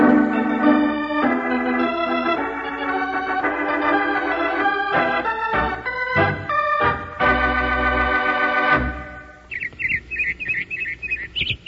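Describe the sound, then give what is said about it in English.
A robin sings spring song: bright, quick, high chirping phrases repeat through the last two seconds, following a long, loud stretch of sustained, layered tonal sound. “That's a robin singing.”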